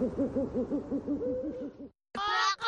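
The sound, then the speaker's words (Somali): Dove cooing: a rapid run of many soft, low hooting coos in a steady rhythm, then a short silence and a louder, harsher, higher burst of sound. “Boqoley! Kuku! Kuku! Waa sax. Aad baad u taqaanaan sida loo sameeyo dhawaqa qoonleyda.”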